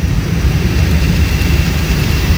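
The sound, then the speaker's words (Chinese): Cargo plane engines roaring as the freighter takes off from Jiaxing Nanhu Airport on an international cargo route. The loud, steady, low jet rumble carries a broad hiss and no voices. “随着引擎轰鸣，圆通航空嘉兴号货机缓缓升空”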